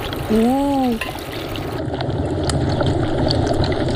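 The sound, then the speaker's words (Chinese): Water is poured into a wok of frying meat and sauce, making a steady, loud rushing hiss with sizzling. A brief voice is heard near the start. “翻炒一下，开始加水。 一下子都倒进去。”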